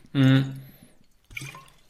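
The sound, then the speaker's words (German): A sip of water being drunk: a short burst of wet slurping and swallowing, with a brief voiced throat sound at the start, followed by a softer splash of liquid noise after a pause. “Ich nehme jetzt nur ganz kurz einen Schluck Wasser.”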